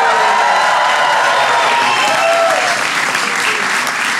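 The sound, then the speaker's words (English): An audience at the White House applauds to welcome the NBA champion Golden State Warriors. The clapping is loud and steady and continues without a break for the whole span. “Welcome to the White House, everybody. Give it up for the NBA champion, Golden State Warriors.”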